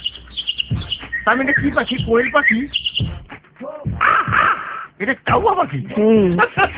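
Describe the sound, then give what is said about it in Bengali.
Birds chirping in quick, high, twittering calls, mixed with a person talking over them throughout. “কি সুন্দর পাখি কিচিমিচি শব্দ”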